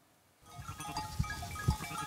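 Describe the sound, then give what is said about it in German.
Bleating from rough-wooled Pomeranian landrace sheep, a flock about to be moved to another pasture. A few faint, short bleats rise over a low, steady background hiss with a couple of dull bumps. “Seine rauwolligen pommerschen Landschafe sollen auf eine andere Weide.”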